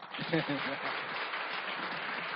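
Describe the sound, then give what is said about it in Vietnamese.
Audience applause at a Buddhist dharma talk: a dense, steady wash of clapping that holds for about two seconds after a brief stretch of speech at the start. “Các anh chị vô tràng pháo tay đi ạ.”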